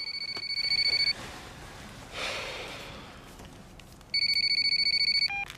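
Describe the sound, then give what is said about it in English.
A phone rings in two bursts of rapid, high, trilling electronic chirps, with a soft breathy sound between the rings. “His phone ringing wakes Sam up.”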